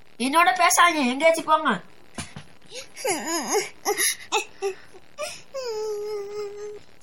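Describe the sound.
A person cries in quavering, wailing bursts, with sobbing phrases broken by short pauses. The pitch wobbles up and down, ending in a longer drawn-out moan.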